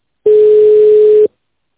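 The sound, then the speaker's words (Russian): A telephone ringback tone on a call that goes unanswered: a single loud, steady, mid-pitched tone of about one second, followed by silence. “Звоню, трубку не берут.”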